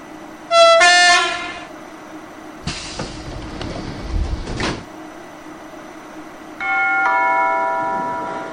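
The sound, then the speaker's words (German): An Intercity Express train arrives at a station platform. A sustained multi-tone chime sounds first, then a few seconds of loud rumbling and hissing train noise, then another long chime tone. “Intercity Express 590, Arrival 2208, is now arriving at Platform 9. This train ends here. Please take care while the train is approaching.”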